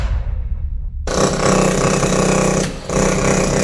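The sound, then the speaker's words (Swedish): A hydraulic rammer hammers hard in a dense, rapid pounding that starts abruptly after a quieter opening, breaks off briefly, then resumes loud to the end. “Hörde du? Det är en rammer. I sitt naturliga habitat.”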